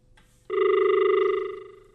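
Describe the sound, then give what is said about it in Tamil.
A telephone ringing: a single sustained electronic ring tone with a slight warble starts abruptly, holds steady and fades at the end. “அழைப்பு மணி ஒன்று வந்திருக்கிறது அப்படின்னு வச்சுக்கோ.”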